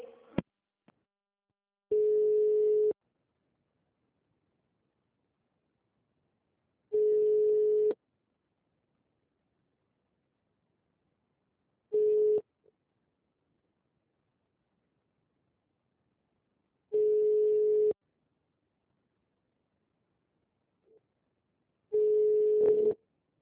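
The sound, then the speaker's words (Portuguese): An unanswered phone call rings. Five steady one-second ringback tones sound at even intervals of about five seconds, with silence between them. “Aí eu consegui, só que ninguém me atende. Falou só um minutinho que eu vou transferir. E aí ninguém atende. Vou ligar de novo.”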